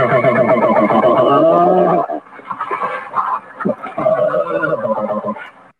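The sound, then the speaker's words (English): Black bear threat call from a large female aimed at a smaller male: a loud, drawn-out harmonic bawl for about two seconds, then a run of shorter, rough, pulsing vocalizations. “what you're hearing in that audio clip is two black bears. That sound is a threat call that a large female black bear is giving a smaller male black bear.”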